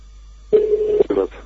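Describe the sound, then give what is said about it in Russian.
Telephone tones sound on a second phone: a steady, mid-pitched beep of about half a second, then a brief gap and a shorter beep, alone against a near-silent background. “Видишь, это я на два телефона звоню.”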